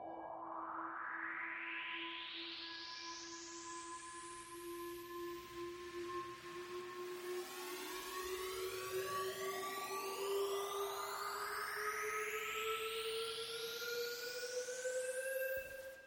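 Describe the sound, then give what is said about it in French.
Upfilter sweep in an electronic music build-up: bright harmonic tones glide steadily upward in pitch for about sixteen seconds. A second, faster rising layer joins halfway through, with no voices. “Des upfilters vont accompagner toute la montée. Vous savez, les upfilters, les sons qui vont de plus en plus aigus.”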